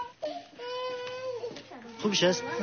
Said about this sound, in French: La petite fille a vu son papa partir, voilà, elle se met à pleurer.